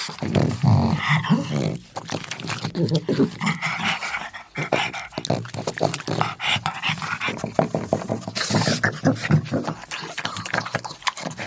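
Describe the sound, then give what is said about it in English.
A pug dog growls and grumbles to itself in a steady stream of low, rumbling growls mixed with whiny, panting noises, fairly loud and continuous throughout. “It's actually just a dog talking to himself.”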